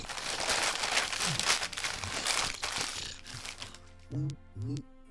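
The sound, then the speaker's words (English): Paper crinkling and tearing as a wrapped present is unwrapped at a Secret Santa gift exchange, a dense, continuous rustle lasting several seconds before a voice speaks briefly. “sorry, it's it's hard to unwrap presents when one of your arms is an alligator tail.”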